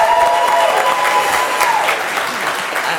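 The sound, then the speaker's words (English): Audience applause after a speaker's introduction at a morning conference panel: dense, steady clapping from a crowd, loud and continuous throughout, easing only slightly toward the end. “Give it up for Sunshine Lencho, everyone. Yo, make some noise for Sunshine Lencho.”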